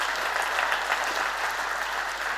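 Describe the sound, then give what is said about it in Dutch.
Steady, dense applause fills a church service as an audience claps for a woman who has stood up. The clapping is even and unbroken throughout. “Zullen we haar eens even geweldig applaus geven?”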